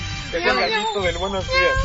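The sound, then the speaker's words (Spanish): A human voice imitates a cat's meow, singing drawn-out, wavering meow-like syllables with sliding pitch in a continuous vocal line over faint low background noise. “Con maullido sale más fácil.”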